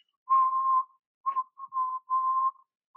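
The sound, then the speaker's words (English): A person whistling with no tune, producing several short, clear notes at a steady, fairly high pitch, separated by brief silences and varying in length. “just whistling, not with no tune at all, nothing, just whistling.”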